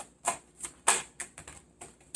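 Tarot cards being shuffled and drawn make a faint series of crisp, irregular taps and flicks, each short and bright, with quiet gaps between them.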